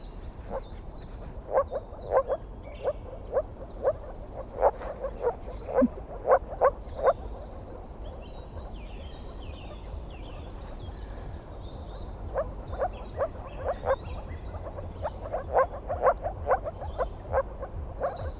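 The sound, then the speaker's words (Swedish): Moor frogs calling in a marsh, in two bouts of short, soft croaking pulses delivered in quick series and separated by a quiet stretch, faint over a steady low background hiss. “Men då så finns det en grodart till som du brukar ja, höra här. Här finns i det här kärret så finns åkergroda. Mm. Ska vi lyssna på hur den låter då?”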